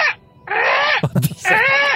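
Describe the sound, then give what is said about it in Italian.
A human voice imitates a tired seagull with three drawn-out, nasal, wailing caws. The middle call breaks into rough, choppy bursts. “Cos'è mai? Il corvo? No, non lo so, forse un gabbiano. Il gabbiano stanco. Stanco. Ah, è il gabbiano ma stanco.”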